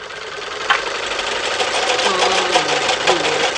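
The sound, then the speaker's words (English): A sewing machine winds thread onto a small bobbin with its built-in winding attachment, giving off a continuous, fairly loud mechanical whir with a fast, even rattling pulse. “Shouldn't ought to take over 15 or 20 minutes to get this little bobbin full of thread with this gadget they got on here.”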